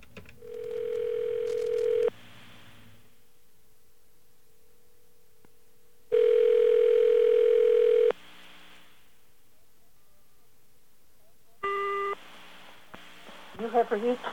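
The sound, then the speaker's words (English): A telephone dial tone and direct dialing of a number: a steady tone lasts about two seconds, then a long quiet pause, then a second two-second tone, and finally a short two-pitch beep with faint clicks at the end. “instead of dialing O plus this number, we're just going to dial the number direct.”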